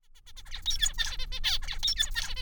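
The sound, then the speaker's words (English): A male zebra finch singing: a rapid string of thin, squeaky, high-pitched chirps and buzzy notes in a clipped, stuttering rhythm, steady and fairly clear. “What you're hearing is a male zebra finch singing. You may think that it sounds like a squeaky toy squeezing out Morse code, but to a female finch, it's a love ballad.”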